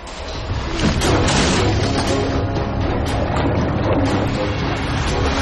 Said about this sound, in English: Smoke pumps out of the exhaust as the engine turns over, and the Bloody Mary